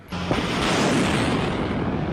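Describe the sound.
Artillery firing at a field drill in blowing dust: an abrupt heavy blast swells into a dense, rumbling roar that holds for about two seconds with a wind-like rush mixed in.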